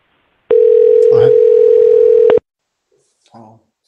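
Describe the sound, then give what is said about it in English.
A telephone ringing tone sounds as one loud, steady, low-pitched tone lasting about two seconds, then cuts off, followed by a brief murmur of voice. “I think it's ringing. Yeah, it's ringing.”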